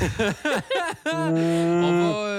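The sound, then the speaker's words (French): A person's voice imitates a cow mooing. A few short chuckling syllables come first, then a long, low, steady droning moo held for over a second. “Ah, qu'est-ce que ça c'est? C'est une vache!”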